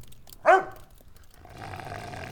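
Dog growling: one short, sharp, bark-like vocal burst, then a quieter low rumbling growl that carries on to the end, faint overall.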